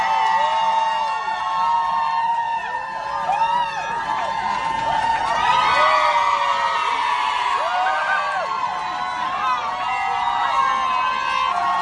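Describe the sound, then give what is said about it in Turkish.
A crowd at a street demonstration cheers after a decision, with dense overlapping shouts, whoops and high voices forming a loud, continuous roar that keeps going throughout. “Karar alındıktan sonra özellikle sevinçle, ağlamayla, sevinç çığlıklarının birbirine karıştığı çok dramatik şeyler vardı. Birkaç küçük ses var elimizde.”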